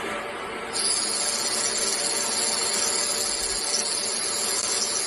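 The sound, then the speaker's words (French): A laser engraving glass gives a steady, loud hissing buzz with a thin, high whine on top. It jumps up in level just under a second in, then holds constant. “Et ça, c'est le bruit de mon laser quand je grave du verre.”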